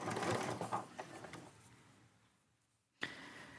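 A sewing machine stitching fabric, a rapid rattling mechanical whir that fades down to near silence, then starts up again abruptly after a brief pause.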